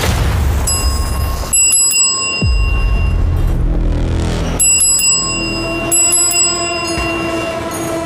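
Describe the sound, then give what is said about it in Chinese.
A bell rings on a cooking competition game show, with several bright, sharp strikes whose high tones ring on and sustain over a noisy background. “哇，按铃了，好紧张啊！”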